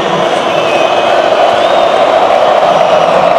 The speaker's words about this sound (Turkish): Dušan Vlahović tezahüratları statta. Zaten söylemeye alışık oldu bir tezahürat.